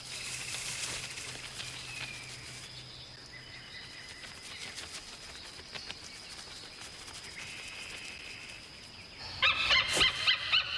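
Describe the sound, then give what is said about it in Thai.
A male bird calls continuously in a thin, steady high tone, then breaks into a run of brighter, rapid chirping bursts near the end. “เสียงร้องที่ต่อเนื่องของนกตัวผู้”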